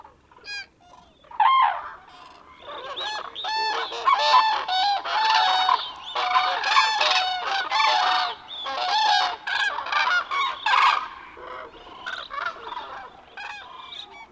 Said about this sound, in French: Le brouhaha de croassement que font de nombreuses grues peut s'entendre de très loin. Leur tintamarre est assourdissant.